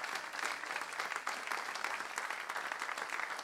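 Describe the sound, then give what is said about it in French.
A church audience applauds during a French-language service. Many hands make a steady, dense wash of clapping, soft and even throughout, with no single voice standing out. “Est-ce qu'on peut acclamer le roi qui est avec nous ce matin?”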